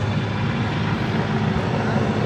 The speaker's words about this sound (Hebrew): רק רגע, בוא נמתין רגע, עובר אותנו ממש מעלינו המסוק כרגע.